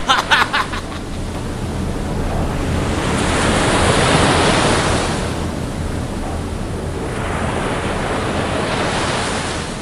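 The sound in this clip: Sea waves surge in a loud, continuous rushing roar that swells toward the middle and then eases back, with wind blowing over the water throughout.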